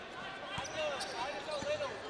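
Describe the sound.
A basketball is dribbled on the court during a high school boys game, giving a couple of soft, dull bounces mixed with faint sneaker squeaks over a low background of voices.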